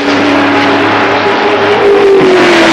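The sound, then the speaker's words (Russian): A racing car speeds along a track, its loud, steady engine note held throughout with only slight shifts in pitch. “Машина несется по трассе. К ней присоединяется еще один гоночный автомобиль.”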